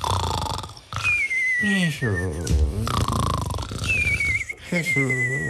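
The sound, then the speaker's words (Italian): Exaggerated, cartoon-style snoring of characters in deep sleep after drinking: rumbling, snorting inhales alternate with high whistling exhales that slide slightly downward, repeating in a few cycles. “Pico e Fauno, che cominciano a bere tutti contenti, finché si addormentano russando profondamente.”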